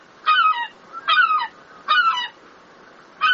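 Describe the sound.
A seagull calling in Rome: four harsh, nasal cries, each a short stack of falling harmonics, spaced evenly with quiet gaps between, the last one cut off.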